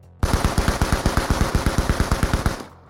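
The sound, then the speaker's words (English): Machine gun fire aimed at men on a gantry in an action thriller: one long, loud, rapid burst of evenly spaced shots that cuts off abruptly. “Arihant focused his attention on the men on the gantry and sent a deadly batch of bullets in their direction.”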